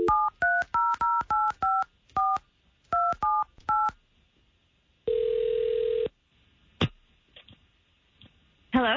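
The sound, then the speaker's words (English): Telephone keypad tones dialing a call: a run of short DTMF beeps in uneven groups, then a steady one-second tone and a few faint clicks. “all we're going to do here is get the information that you got us in the email and try to give Joanne a call here.”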